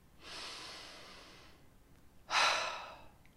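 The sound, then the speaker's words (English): A deep human breath, drawn in as a long, soft, airy inhale, then released in a shorter, louder exhale, heard alone with no talk. “maybe in light of that, it's good just to stop and just take a breath.”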